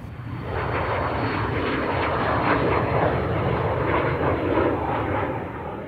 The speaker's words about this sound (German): Ein Geschäftsflugzeug. Das ist eine zweistrahlige Düsenmaschine. Der startet jetzt gleich.